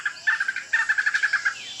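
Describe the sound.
Outdoor nature ambience carries a rapid gobbling bird call made of many quick, bright pulses in two bursts separated by a short gap, fairly loud and with no talking.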